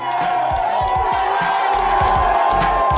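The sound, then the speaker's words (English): Ole Miss fans cheer and whoop as head coach Lane Kiffin steps off a private jet at the airport on his first arrival in town, a loud, continuous crowd roar with shouting voices rising and falling throughout. “That's the sound of Lane Kiffin getting off a private jet to the cheers of Ole Miss fans as he arrives in town for the first time as head coach.”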